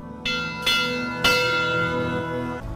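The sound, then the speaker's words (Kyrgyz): A memorial bell rings in honour of climbers who never came down from the peaks of Kyrgyzstan's mountains, with a few clear metallic strikes whose bright overtones hang and ring on between blows. “ушу кыргыз тоолорунан, чокуларынан түшө албай калгандардын урматына коңгуроо кагып коюлушат.”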